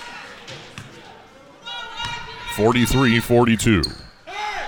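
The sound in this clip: A basketball bounces on the court as a Kansas City player readies a free throw in overtime, a few dull thuds under a commentator's steady talk.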